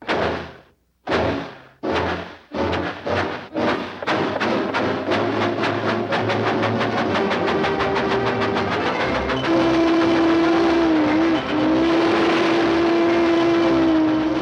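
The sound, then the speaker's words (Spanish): A small cartoon train chugs off at full speed. Its first puffs are loud and widely spaced, then quicken into a fast, continuous rattling chug, and a sustained steady tone joins midway and runs to the end. “¡Estoy conduciendo un trenecito! ¡Voy a ir a toda velocidad!”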